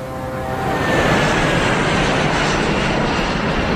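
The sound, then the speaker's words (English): Jet roar of an Airbus airliner on a Brisbane via Sydney flight passing low just over the fence near the end of a runway, swelling over the first second, then holding loud and steady. “Airbus, Brisbane via Sydney. How close to get to the end of the runway? Oh, just over the fence.”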